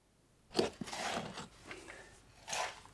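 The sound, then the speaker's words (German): Gritty scraping and crunching as prisoners mix cement at Esterwegen concentration camp in 1934, coming as a few rough bursts, with the loudest at the start and near the end. “Konzentrationslager Esterwegen, 1934. Einige Häftlinge mischen Zement.”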